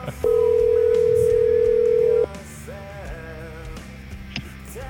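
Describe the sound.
A telephone rings on the line as a single steady two-second ring tone, loud over a continuing musical backing, which plays on alone afterward.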